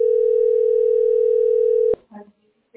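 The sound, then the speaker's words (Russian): A telephone dial tone hums while a call is placed to an accounting office: one steady, unbroken mid-pitched tone for about two seconds that cuts off sharply, followed by a brief, faint voice. “А здесь я звоню ТСБУК.”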